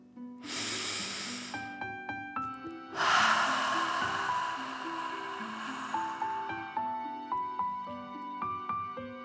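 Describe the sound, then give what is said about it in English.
Slow, deep breaths imitating a dragon in a children's guided meditation, two long, breathy rushes of air separated by a pause, over soft, sustained musical notes. “Let them settle down into the grass and breathe like a dragon, in and out.”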